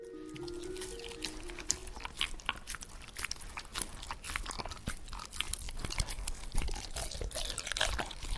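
Crunchy chewing of stinging nettles, with many rapid, crisp bites and crackling leafy crunches repeating steadily and fairly loud across the whole stretch, with no voices over them.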